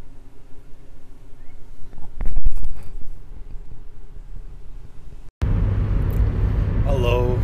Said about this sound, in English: I'm just driving into work